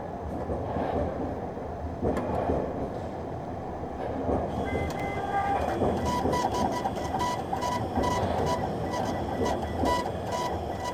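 A drumstick strikes a blue metal pillar on a Berlin street, giving many quick, ringing taps that begin partway through and sit over a constant wash of traffic and city rumble.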